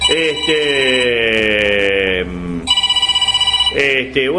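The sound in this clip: A telephone rings with a rapid, buzzing, pulsed trill between sustained tones, with a voice heard alongside.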